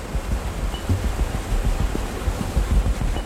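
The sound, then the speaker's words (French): A flash flood at Vaison-la-Romaine sends a torrent of water up to the level of a Roman bridge, making a loud, steady rushing roar. A deep churning rumble runs through it without pause. “La crue est devenue torrent, l'eau arrive au niveau du pont.”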